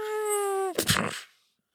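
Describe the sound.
A voice imitates a drill grenade from a video game: a steady, whining, buzzy tone held for well under a second, then a short noisy burst that fades out quickly.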